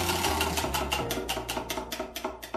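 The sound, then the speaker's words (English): A prize wheel being spun makes a rapid, steady run of many sharp ticking clicks over a low tonal background. “Let's give the wheel a spin and see what it lands on.”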